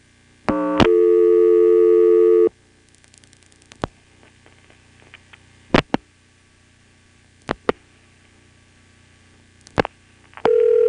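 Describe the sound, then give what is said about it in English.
Telephone trunk-line tones after dialing 2 and then 3: a loud, steady, buzzing tone holds for about two seconds and stops, followed by quiet line hiss with several sharp clicks, then a new steady tone starts at the end. “I also tried dialing 2, followed by a 3 on this trunk.”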